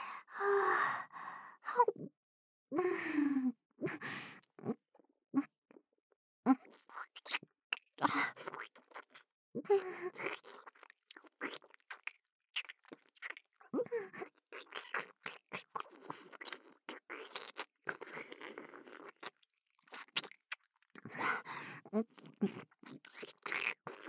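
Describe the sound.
Chewing and crunching while eating: many irregular sharp, crisp mouth clicks and bites spread through the whole stretch, mixed with soft breathy sighs and gasps, with no clear talk.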